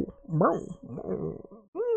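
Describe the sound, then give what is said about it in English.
A person's voice imitating a dog with a few whimpering, yelping calls that swoop up and down in pitch. A brief pause comes before one last rising whine. “Ooh, guys, you need an animal companion that isn't Ajax, because I can do dog sounds”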